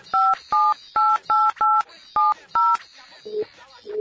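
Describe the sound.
Touch-tone telephone dialing: seven short, bright keypad beeps in quick succession as a phone number is entered, with fainter sounds following the last tone.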